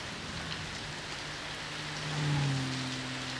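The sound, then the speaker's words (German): Soft, steady rain falls all around as a faint, even hiss of drops, with a low hum rising briefly underneath toward the end. “Es regnet so merkwürdig. So rhythmisch ringsherum. Hören Sie? Wie Musik.”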